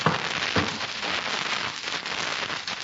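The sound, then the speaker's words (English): Crackling of a log fire as another log is added, heard as a dense, steady crackle and hiss with scattered sharp pops throughout. No voices. “I'll put another log on the fire for you.”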